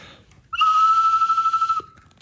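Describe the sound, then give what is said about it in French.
A novelty whistle topped with a bird figure that moves when it is blown gives one bright, steady high note lasting over a second. Its loudness flutters rapidly toward the end before it cuts off. “Ils sont tout différents, les sifflets. J'aime bien celui-là, moi. Puis quand vous sifflez, l'oiseau, il bouge.”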